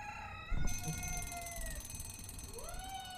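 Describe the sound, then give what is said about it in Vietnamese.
An alarm clock goes off at 6 a.m. with electronic tones that slide up and down in pitch above a buzzing high band. The sound is steady and fairly quiet, with no voices. “6 giờ sáng, chuông báo reo inh ỏi. Mà thực ra là do quên tắt”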